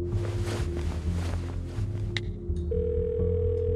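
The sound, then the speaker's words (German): Steady electronic ringback tone of an outgoing phone call to a PR agent, a flat held hum broken by a couple of sharp clicks before the tone shifts slightly higher and continues. “Sie ruft ihren PR-Agenten an.”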